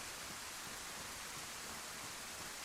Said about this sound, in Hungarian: Az orromig se látok ebben az esőben egyébként.